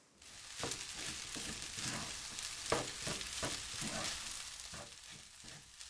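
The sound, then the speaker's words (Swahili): Fried rice dry curry is stirred in a sizzling pan after soy sauce is added, a steady quiet frying hiss broken by many soft scraping strokes. “Ili upate ladha nyingi zaidi, ongeza sosi ya soya kijiko kidogo pembeni mwa sufuria. Kisha koroga kila kitu vizuri.”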